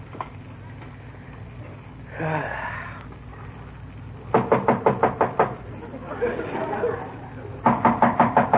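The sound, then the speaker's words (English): Knocking on a door at night, at bedtime, comes in two quick, sharp bursts of several raps each, loud against a low steady background hum. “somebody at the door.”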